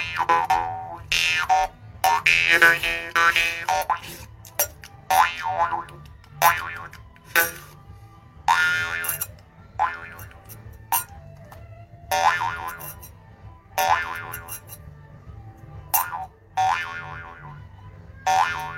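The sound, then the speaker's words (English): Twangy, springy boings from a jaw harp, also called a juice harp, plucked in many uneven bursts, with wobbling resonant tones that swell and fade and short silences between phrases. “I found my juice harp.”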